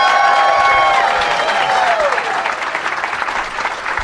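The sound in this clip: Applause and cheering greet a guest at a live show taping. A high whoop rises early and falls away while the clapping stays full, then thins slightly toward the end.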